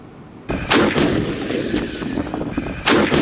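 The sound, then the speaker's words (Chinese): Tanks fire live rounds during a desert gunnery exercise: two loud, sharp cannon blasts, each followed by a rumbling, rolling echo, with a quieter crack in between and no voices. “大漠戈壁，新疆军区某团正组织坦克分队展开实弹射击考核。”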